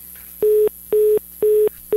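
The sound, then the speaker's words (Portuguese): Busy tone on a telephone line after contact with a caller is lost: three evenly spaced beeps at one steady pitch and the start of a fourth, each about a quarter-second long, separated by equal silences. “Perdemos o contato com o Zé Maria, voltamos daqui a pouco. Vamos ligar para ele aqui, já a gente volta.”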